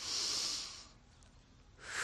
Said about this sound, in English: Hands on belly, breathe in through the nose, out through the mouth.